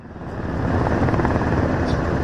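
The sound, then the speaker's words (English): Helicopters landing and circling over the South Korean National Assembly grounds, giving a steady, loud, broad rotor roar that swells slightly at the start and then holds even. “Helicopters were seen landing inside the South Korean assembly grounds while others circled above the site.”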